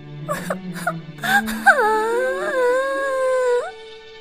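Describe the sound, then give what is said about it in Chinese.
A princess from the Frog Prince fairy tale cries aloud: a few short sobbing bursts give way to a long, wavering, high wail that holds steady before breaking off. “一想到冷冰冰、黏糊糊、滑溜溜的青蛙要睡到自己的床上，公主再也忍不住，委屈的哭了起来。”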